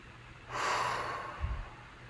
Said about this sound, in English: Everybody, just really allow yourself to take a nice deep breath with me,